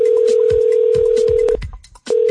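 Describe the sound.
A telephone call rings out on the line with a loud, steady ringback tone that holds, cuts off briefly, then starts again.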